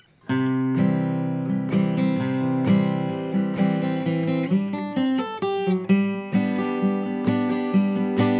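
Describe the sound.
Acoustic guitar lick moving from a C chord to a G chord: a ringing opening chord, then plucked single notes and short phrases walking between the two chords, with fresh strummed attacks near the end, played alone at moderate loudness.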